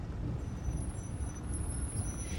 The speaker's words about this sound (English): pulls the car over